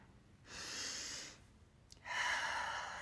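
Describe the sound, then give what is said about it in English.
A person takes a deep breath, heard as two long, soft airy breath sounds with a short pause between them. The breathing is quiet and there is no talking. “Ah, let's take a nice deep breath.”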